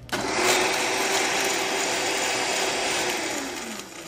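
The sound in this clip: A juicer grinds whole watermelons, rinds and all, with a loud, steady motor whir and a constant tonal hum that runs unbroken before easing slightly at the end.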